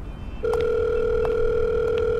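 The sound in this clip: A telephone dial tone starts after a moment of faint hiss, then holds as a steady, even hum over low background noise, with a few faint clicks.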